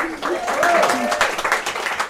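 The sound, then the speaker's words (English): A brief burst of audience applause greets a guest at a live talk at a London restaurant: many hands clapping together, with a voice speaking over it. “A big hand of applause.”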